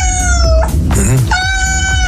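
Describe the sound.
A cat meows in two drawn-out, insistent cries with a rougher, throaty sound between them, loud and with no voices.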